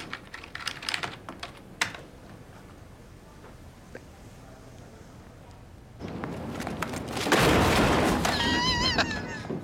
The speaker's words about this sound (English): Dude, if you think that's bad, go to Google Earth and type in your address.